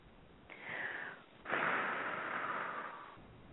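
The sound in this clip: A slow breath in and out: a short breathy inhale followed by a longer, steady hissing exhale, heard alone in quiet.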